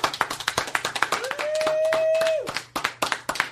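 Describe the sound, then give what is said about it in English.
Sparse, uneven hand claps from a small audience greet a comedian's introduction in a radio show studio. Partway through, a steady whistle-like tone slides up and holds before the clapping picks up again. “Ladies and gentlemen, Louis C.K. Everyone applaud.”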